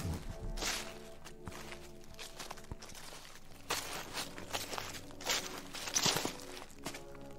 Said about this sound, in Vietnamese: Càng đi, tiếng lá khô ở dưới chân cứ lạo xào